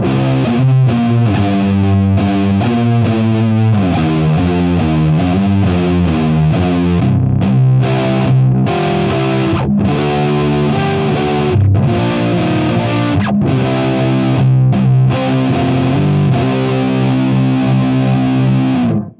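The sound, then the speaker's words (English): Thick, heavily distorted electric guitar played through a Black Arts Toneworks Faro fuzz pedal, giving a muddy stoner doom tone. Loud sustained chords change steadily with no pauses and no voices. “And then I have that going through the Black Arts Toneworks Faro Fuzz, which makes it even muddier.”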